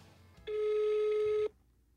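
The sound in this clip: An outgoing phone call to a food bank rings with one steady, even ringback tone lasting about a second, then stops, leaving faint background noise.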